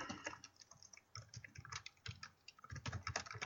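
Rapid clicking of keys on a computer keyboard as someone types a message into a chat. The quick, uneven patter of keystrokes is faint and continues with no voices.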